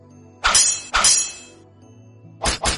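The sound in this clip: Metal swords clash in a martial-arts duel, five sharp ringing strikes: two spaced hits, then after a pause a quick burst of three, each with a brief metallic ring.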